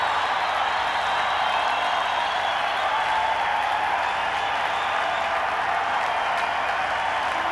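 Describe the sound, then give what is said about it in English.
A concert audience applauds and cheers for an encore in a dense, unbroken wash of clapping and crowd noise that holds at an even, loud level throughout. “The audience wants an encore. I think they're going to get one.”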